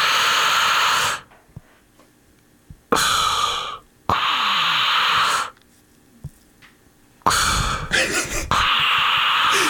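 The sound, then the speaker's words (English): A person demonstrating a breathing pattern: long, loud, airy breaths, each lasting a second or more, separated by quiet pauses in a deliberate rhythm, with the final breath running to the end. “Like I'll show you my breath pattern. Yeah, it's like this.”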